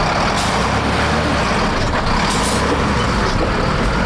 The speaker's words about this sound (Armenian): Այդ ընթացքում տասնյակից ավելի բեռներ փոխադրող մեքենաներ անցան, փորձելով շրջանցել փոսերը։